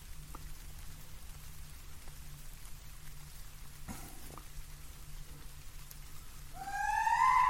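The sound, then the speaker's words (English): Rain falls as a steady, even hiss with a faint low hum beneath it. Near the end, a bright tonal whine with overtones rises in and grows louder. “Are you talking about the rain? That's rain, not tears.”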